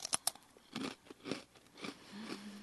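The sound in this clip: Crisp biting and chewing of a lemon-flavored squid tempura snack: two sharp snaps at the start, then a few broader crunchy chews at an uneven pace, fairly faint and with no talk.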